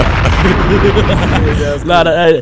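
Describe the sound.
Loud bomb explosion sound effect: a dense, rumbling blast that fills the whole stretch, with a short wavering voice-like tone rising out of it near the end.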